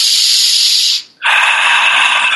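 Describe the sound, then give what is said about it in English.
Two long, airy, hissing breaths from a deep-breathing exercise done between laughter exercises, each about a second long and loud, separated by a brief silent pause. “And then we have breathing. We deep breathe like.”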